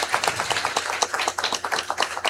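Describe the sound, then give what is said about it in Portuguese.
Applause from a church audience during a novena service, welcoming a visiting priest: many hand claps in a dense, uneven patter, moderately loud and steady throughout, with no talk over it. “Seja muito bem-vindo, padre Moésio. Uma salva de palmas.”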